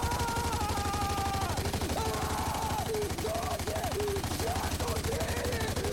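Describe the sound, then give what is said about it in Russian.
A machine gun fires toward the mountains in a rapid, unbroken stream of loud shots that stays steady for the whole stretch. “Поднимает лежащий там пулемет. Стреляет в сторону гор.”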